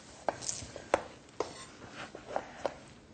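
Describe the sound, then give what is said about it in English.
Knife cutting food in half on a board, heard as a few sharp, separate knocks with quiet gaps between them and no talk. “and then what I like to do here is I like to cut this in half.”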